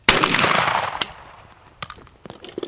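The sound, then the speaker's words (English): Gunshots at clay targets on a shooting range: a loud opening blast with a long fading tail, a second sharp crack about a second later, then several fainter cracks toward the end. “As he shoots at clay targets”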